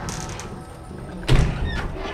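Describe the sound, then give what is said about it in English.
A gate slams shut with a heavy, low thud, followed shortly by a fainter knock as the latch drops back down, over a steady low rumbling background. “the gate slammed closed and the latch went back down.”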